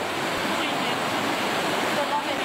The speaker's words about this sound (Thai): มันมีมวลน้ำป่าไหลทะลักลงมาครับในพื้นที่ปากช่องหนองสาหร่ายเอาติดตามได้จากคลิปนี้เลยฮะ นครราชสีมาครับ